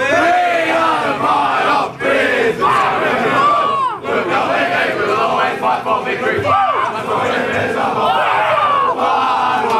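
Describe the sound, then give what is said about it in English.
Brisbane Lions football players belt out their club song in the change rooms, a loud, rowdy group of voices singing together continuously with shouts mixed in. “Let's get down to the rooms now to hear the Brisbane Lions belt out their song in the change rooms.”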